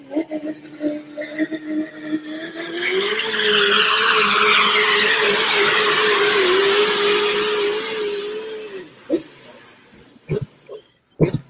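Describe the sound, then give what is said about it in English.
A tractor-pull engine roars at a pull in Ontario, Canada: a Duramax diesel that sounds like a V8 Massey. It builds to a loud, sustained, steady drone for about six seconds, then drops away into a few short bursts. “That's Duramax. That could swing a Duramax crank. That's acting like a V8 Massey right there”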